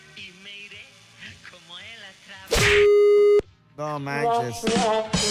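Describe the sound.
A steady, loud electronic telephone tone from a call that goes to voicemail, sounding once for just under a second between stretches of talk.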